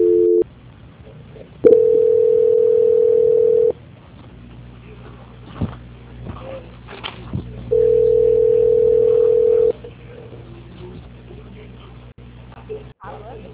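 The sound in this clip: A telephone call transfer tone: two long, steady mid-pitched beeps, each about two seconds and separated by a gap, over low line hiss with brief clicks.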